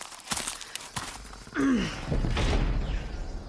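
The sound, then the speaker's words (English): Large gates swing open with a low creaking groan, then a sustained rushing rumble that continues steadily to the end. “Now gather behind me, everyone. I'm going to open these gates, and then we begin our journey east.”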